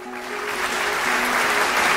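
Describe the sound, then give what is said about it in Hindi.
An audience breaks into hearty applause for the participants being praised, a dense, continuous clapping that swells slightly in loudness and stays strong to the end. “इन सभी के लिए जोरदार तालियां।”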